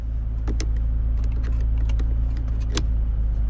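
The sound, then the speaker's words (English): A driver pulls a car seatbelt across his body, making a few light clicks and rattles over a steady low hum inside the car. “He places a paper bag in the passenger seat, then pulls the seatbelt across his body.”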